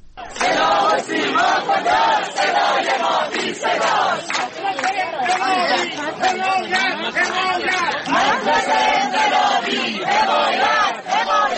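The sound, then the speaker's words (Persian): Loud, dense crowd noise from teachers protesting at a rally in Shiraz, Iran: many voices shouting and chanting together without a break for the whole stretch, with a steady, rough rhythm of massed cries. “این صدای تجمع کنندگان در شهر شیراز است.”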